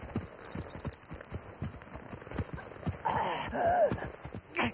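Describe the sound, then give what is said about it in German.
Horse hooves pound as a rider gallops away. The beats are quick, uneven and many, with a faint hiss beneath them. “Er reitet nach Osten, ins Indianer-Territorium!”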